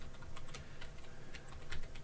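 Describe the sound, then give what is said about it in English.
Typing a search on a computer keyboard: many quick, light keystrokes clatter in an uneven rhythm, fairly faint and steady throughout, with no voices. “Oh, if I type into Google meat injector, what do you think I'll get?”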